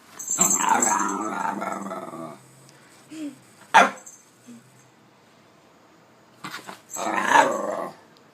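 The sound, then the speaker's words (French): A hunter's dog growls in a long, rumbling snarl, then lets out a short sharp burst like a bark. A few brief yips follow, and a second loud growl comes near the end, with no talk over it. “D'ailleurs, on a un enregistrement du chien, faites voir un peu.”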